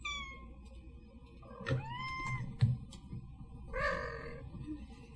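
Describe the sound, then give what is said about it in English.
An angry cat gives a few drawn-out, harsh yowls with wavering pitch. The loud cries are separated by brief pauses over a low background rumble. “That was an angry cat.”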